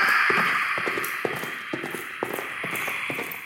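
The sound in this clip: Horse hooves trampling at night, a steady run of rhythmic clip-clop beats over a hissing background.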